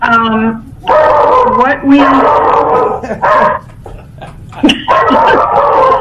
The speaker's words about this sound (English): There are barking dogs. I apologize.